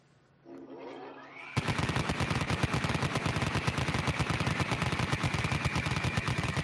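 A machine gun sound effect opens with a whirring spin-up that rises in pitch, then breaks into one long, loud burst of rapid fire that rattles on for about five seconds.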